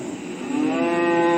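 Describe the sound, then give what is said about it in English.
A Guernsey or Holstein dairy cow gives a single long, low moo that holds a steady pitch and swells louder toward the end. “You might notice that the brown ones are Golden Guernsey cows. They give very rich milk. And the black ones are called Holsteins.”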